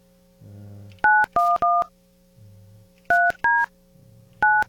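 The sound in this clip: Telephone keypad tones dial a number: six short, loud dual-pitched beeps in uneven groups of three, two and one, over a steady low tone, with brief buzzy low sounds before the first and second groups.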